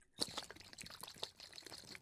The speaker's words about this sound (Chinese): 倒进气泡水的瓶子里，给你摇匀